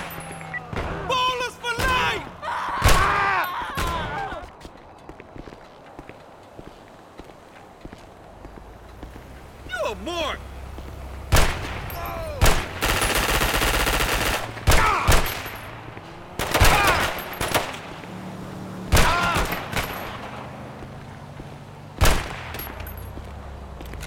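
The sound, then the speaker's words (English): Gunfire in a police role-play video game during a gas station robbery: many sharp shots in scattered bursts and volleys over ongoing background noise, with people talking at times. “Shots fired from the side of the building.”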